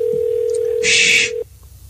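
A telephone line is dialed while calling a hotel: a steady electronic tone holds, a short hissy burst of higher signal cuts in, then the tone cuts off sharply, leaving a faint background.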